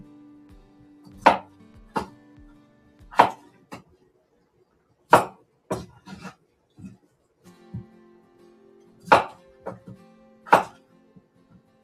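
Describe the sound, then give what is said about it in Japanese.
A knife chops a peeled onion during home cooking for a hot pot, making a series of sharp, irregularly spaced thuds with quiet pauses between them and no talking. “で、あと玉ねぎも皮をむいて、切ってすぐに鍋ができるようにしていきます。”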